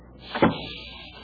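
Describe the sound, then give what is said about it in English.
A door is shut with a single soft thud, followed by a faint fading tail, quiet and alone. “Close the door.”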